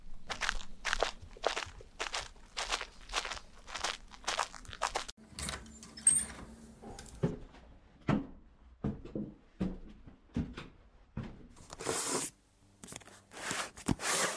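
Footsteps of a person heading to a home library, a steady run of many crisp, evenly spaced steps for about five seconds, then scattered irregular knocks, crunches and rustles.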